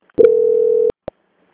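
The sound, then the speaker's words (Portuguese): A telephone line sounds one steady mid-pitched beep lasting under a second while a call is being transferred. A short, sharp click follows, then silence. “pois vou transferir a ligação para o controle de qualidade, que dará continuidade à sua contratação. Só um momento, por favor. Tá bom. Transferência.”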